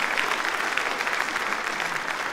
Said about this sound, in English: Let's not get carried away with the applause